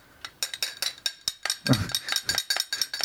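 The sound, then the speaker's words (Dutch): A drink is stirred with a metal utensil used in place of a spoon, making many quick, bright clinks in an uneven rhythm. The clinks are faint, with a soft low thump near the middle and no voices. “even een beetje roeren”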